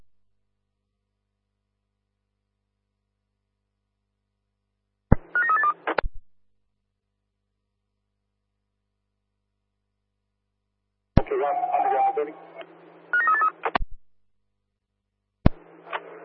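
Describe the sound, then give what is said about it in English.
A telephone is dialed, with short bursts of tones in three separate groups and silent gaps between them. “Yes, we're dialing now.”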